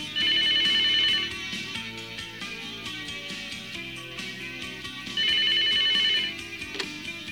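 Telephone ringing: two bursts of bright trilling rings, about a second each and several seconds apart, over steady background music.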